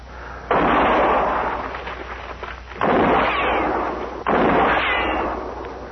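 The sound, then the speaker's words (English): Gunshots fired in a western radio drama, set in brush: three loud, sharp blasts at uneven intervals. Each one trails off into a long, fading rumble, and no voices are heard. “when I fire, you'll roll away fast, huh?”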